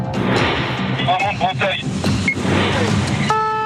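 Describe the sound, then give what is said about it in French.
A car speeds away from a police check after running a red light, its engine and road noise forming a loud, dense, continuous roar. Brief high tonal chirps cut in over the rushing sound. “Il fuit le contrôle de police et accélère.”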